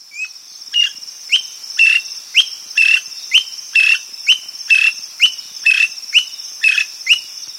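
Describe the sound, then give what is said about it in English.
A greater honeyguide in Kenya on a sunny morning gives its sharp chattering call, many short, high, rasping bursts repeated at a steady, even rhythm over a constant thin high whine. “A sharp chattering penetrates the quiet of a sun-drenched morning in Kenya. It's the call of a greater honey guide.”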